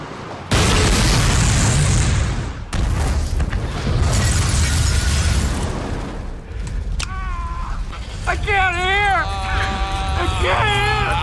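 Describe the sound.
A loud explosion in a movie scene erupts into a long, dense roar that rumbles on for several seconds, followed by wavering high tones and voices.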